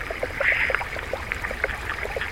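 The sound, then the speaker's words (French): Meltwater flowing on a melting glacier, a steady bright trickling rush dotted with small drips and light clicks throughout. “on entend des sons liés à la fonte de la neige, des écoulements, des bouts de glace qui tombent, mais aussi des rochers”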